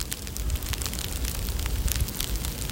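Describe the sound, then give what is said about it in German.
Freezing rain pattering down in Berlin: a dense, even hiss of countless tiny icy ticks and crackles, steady and unbroken from start to finish. “Was Sie hier hören, ist Eisregen. Eisregen, der niederprasselt.”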